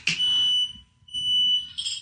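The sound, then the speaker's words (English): A household smoke alarm going off: a loud, shrill, piercing electronic tone sounding in repeated long beeps separated by brief gaps. “What the hell's that? That's my smoke alarm.”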